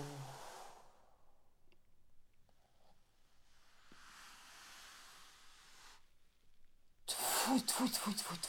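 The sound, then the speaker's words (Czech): Faint, breathy exhales in a voice warm-up exercise. One carries a low voiced hum under the rushing air, and a longer unvoiced breath follows after a quiet pause. A louder, harsher burst of breathy voice comes at the end. “Nahoru nádech. Dolů v podstatě ozvučený výdech.”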